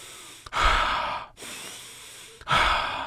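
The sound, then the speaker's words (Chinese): A few slow, deep breaths come in long, heavy drawn-out rushes of air, each separated by a brief pause. They are heard alone, with no talk. “于是他做了几次深呼吸，”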